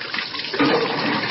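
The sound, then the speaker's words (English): Water poured during waterboarding performed by trained military personnel: a steady rushing gush of liquid, swelling louder partway through and continuing without voices. “That's the sound of waterboarding performed by trained military personnel”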